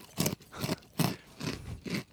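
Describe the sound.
Crunching on Takis chips, five crisp, loud bites in an even rhythm with short pauses between them and no talking.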